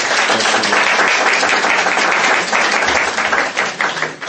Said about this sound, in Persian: خب اول یه دست به افتخار خودتون.